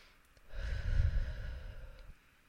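A single slow, deep breath taken as a calming exercise for children, one soft, breathy rush lasting about a second and a half, alone with no voices.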